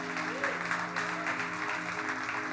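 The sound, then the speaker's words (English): Congregation applauding during a church service, a dense and steady patter of clapping with a low held musical tone sustained underneath throughout. “Let's give it up for those people that accepted Christ.”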